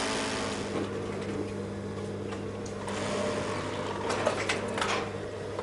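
A sewing machine runs after its shuttle has been adjusted, giving a steady mechanical hum with a fixed drone. Faint, even whirring holds throughout, with a few light clicks near the end.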